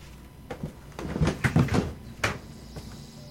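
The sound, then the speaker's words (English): An archive container is pried open by hand, giving a few soft clicks and scraping rattles clustered in the middle and one more sharp click near the end, moderately loud against a quiet background. “what I'm doing here is that I'm prying the archive open with my fingers.”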